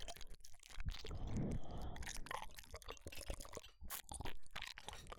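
Quiet chewing while eating a home-cooked meal: many soft, wet, crunchy mouth sounds and smacks in an uneven rhythm, with no talking.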